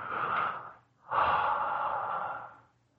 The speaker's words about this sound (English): Breathe through your mouth.